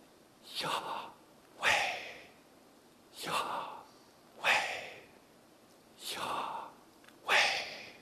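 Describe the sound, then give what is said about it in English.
A person makes forceful, breathy exhalations and inhalations to imitate a sacred divine name. There are six airy hissing breaths, each under a second long and spaced about a second apart. They are fairly loud, with no talk between them. “It was meant to imitate and replicate breath. So the way you would say Yahweh, you can't use it with your tongue, can't do it with your lips closed, you would breathe in Yah,”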